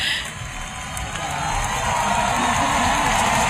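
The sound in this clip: Euphoric cheering from a concert audience: a dense, continuous wash of crowd voices and whoops that swells slightly over a few seconds and stays loud to the end.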